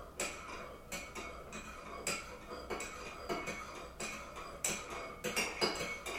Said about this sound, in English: What we do is we stir the coffee around with the spoon.